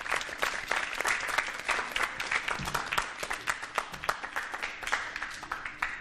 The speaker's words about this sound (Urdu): ان کی زوردار تالیوں کے ذریعے آپ حضرات حوصلہ افزائی کیجیے۔